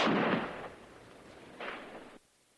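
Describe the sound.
Gunshots fired while hunting game on an island: a broad noisy blast opens and trails off, then a second shorter burst follows before cutting off abruptly; fairly faint overall.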